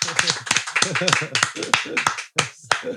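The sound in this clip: Applause for a guest on an Indonesian chat show: a few people clap in sharp, irregular bursts while voices talk and laugh over it.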